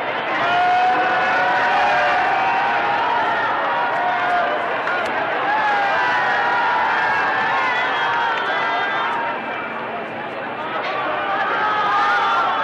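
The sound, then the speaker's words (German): Dense, sustained crowd cheering along a 1963 presidential motorcade route in West Berlin, a continuous roar of many voices that holds steady and loud for the whole stretch, easing briefly near the end. “Und hören Sie nun hier bloß diesen Jubel an.”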